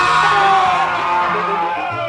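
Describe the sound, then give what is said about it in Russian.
A man lets out a piercing scream of pain, a loud, sustained cry that holds a strained, harsh pitch for the whole moment, then tapers slightly. “Раздался такой истошный вопль, что проснулась вся округа.”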